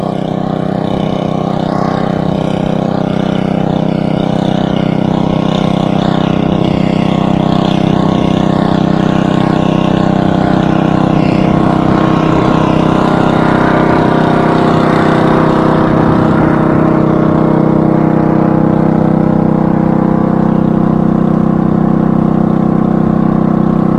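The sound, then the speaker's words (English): Generator running on an open desert playa, a loud, continuous engine drone with a low steady hum and layered harmonics that holds unbroken throughout, its tone shifting slightly partway through. “There's certainly a generator.”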